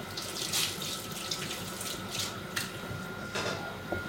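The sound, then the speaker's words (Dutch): Tap water runs into a sink while a single hand is washed, making a continuous soft hiss broken by small splashy bursts. It is fairly faint and there is no talk. “Ja, moet ik even een hand wassen. Dan moet je eens je hand wassen. Het is nu al zo... Ik ga één hand wassen.”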